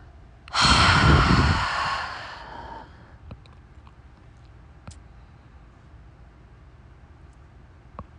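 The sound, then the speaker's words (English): A single long exhale through the mouth after a held breath: a loud, breathy rush that gradually fades, then quiet with a few faint clicks. “And 1 last time in through your nose. Hold it at the top. And exhale through your mouth.”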